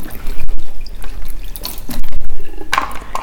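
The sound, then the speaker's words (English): Water running and splashing while a bell pepper is washed, with uneven loud surges and brief drops as the flow is broken. “I'm washing the bell pepper now.”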